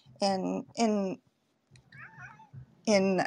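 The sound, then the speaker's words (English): A pet cat meows three times: loud, drawn-out harmonic cries, the first two close together and the third after a quiet pause. “excuse me, that's my cat.”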